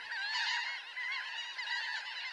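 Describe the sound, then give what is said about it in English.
Laughing gulls call in a flock, a continuous wash of overlapping nasal, honking cries that stays fairly steady and moderately quiet throughout. “Some gulls, like these laughing gulls”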